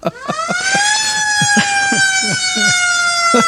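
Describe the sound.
A police siren sound effect plays on an Italian talk show: a loud, steady wailing tone with rich harmonics. Its pitch creeps up slightly, then slowly sinks.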